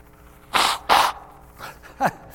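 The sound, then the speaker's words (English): A man blows his nose: two loud, noisy blasts in quick succession, followed by fainter snuffling sounds. “I got to blow my nose again”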